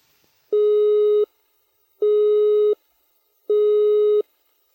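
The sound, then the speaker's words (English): Telephone engaged tone, a steady high-pitched note interrupted at regular intervals: three equal beeps separated by equal silences, clear and alone. “The engaged tone is a high-pitched note interrupted at regular intervals, like this.”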